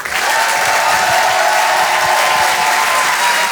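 Sustained applause from a comedy club audience at the Apollo Théâtre in Paris: a dense, steady wash of clapping that holds an even loudness from start to finish.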